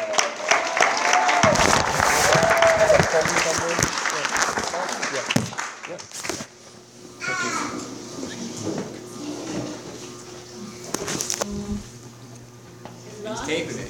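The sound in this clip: Audience applause welcoming a guest speaker at an Alcoholics Anonymous meeting: several seconds of lively clapping that dies away, followed by quieter shuffling and people talking.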